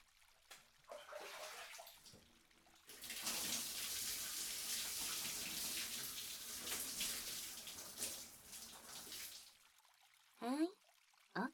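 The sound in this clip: Water splashes over a customer's back at a bath washing area, a steady rushing hiss lasting several seconds, with quieter dripping sounds before and after.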